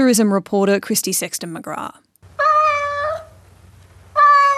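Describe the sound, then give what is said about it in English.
Cats meow at one of Sydney's biggest catteries during an unusually quiet Easter. A person speaks first, then two clear, drawn-out meows follow with a short pause between them. “That's the sound of an unusually quiet Easter at one of Sydney's biggest catteries.”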